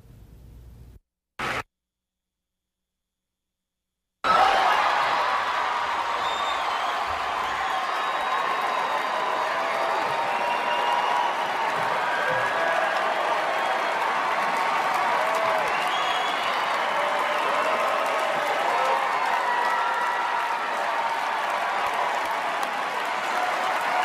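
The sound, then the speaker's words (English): Audience applause and cheering after Robert De Niro's remark about Trump: a brief near-silence with one short blip, then loud, sustained clapping and crowd noise that holds steady for about twenty seconds. “But I want you to watch the audience response after De Niro says, bleep, Trump.”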